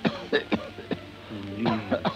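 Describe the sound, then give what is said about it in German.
A theater audience member coughs in a series of harsh, throaty bursts, grouped in two clusters separated by a short pause. “Ach, mein verdammter Husten. Ausgerechnet im Theater.”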